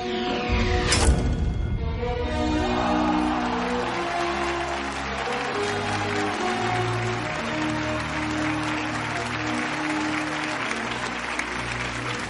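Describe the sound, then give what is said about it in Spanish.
Hands clap in steady, dense applause after an archery feat in a fantasy action film, a continuous crackling wash blended with sustained musical tones throughout. “Lynn que sonríe y aplaude”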